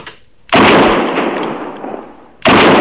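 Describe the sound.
Gunshots fired while hunting an antelope: two loud, sharp blasts about two seconds apart, the first trailing off in a long, slowly fading roar.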